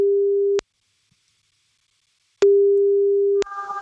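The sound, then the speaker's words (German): Ringback tone of an outgoing telephone call: two long, low, steady tones separated by a silent gap, with a voice starting up right at the end. “Sobald sie rangeht, laufen die 30 Sekunden und wir rufen jetzt Sabrina an.”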